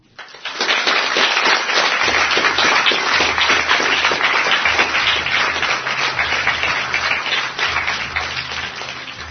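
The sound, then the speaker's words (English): A crowd gives a loud round of applause that rises quickly and holds as dense, sustained clapping for several seconds before easing slightly. No one speaks. “it's our pleasure to give a loud round of applause to all these listeners.”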